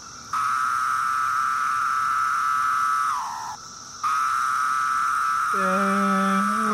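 Chorus of the large cicada species Septendecim: a steady, high, droning buzz that sags and drops out for a moment, then resumes at full strength. Lower tones join the drone near the end.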